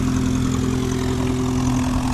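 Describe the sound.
A private plane's engine drones steadily as it taxis toward the runway at an airfield, a constant low hum with layered harmonics holding at an even level throughout, with no voices.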